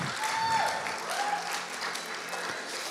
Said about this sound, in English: Can we give a round of applause for our audiovisual?